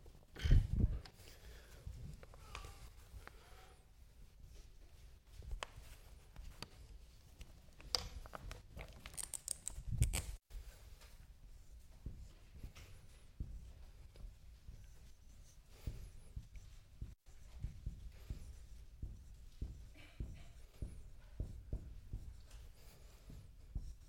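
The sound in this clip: Writing on a board: faint, irregular scratching and tapping strokes, many short marks scattered across a quiet stretch with a few louder knocks.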